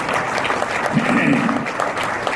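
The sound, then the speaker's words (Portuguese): An audience applauds during a Portuguese-language political speech honoring a minister, giving steady, moderately loud clapping with a voice briefly audible over it partway through. “Não é, ministro Bairro, que aliás hoje faz aniversário, deve merecer um aplauso de todos.”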